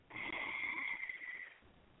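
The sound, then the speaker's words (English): Ujjayi pranayama breathing through a closed mouth: one long, steady breath with a throaty, hissing rasp, fairly faint, then fading to quiet. “with your mouth closed as you breathe out, that is the Ujjayi Pranayama. Inhale sounds like ah. Exhale sounds like ha.”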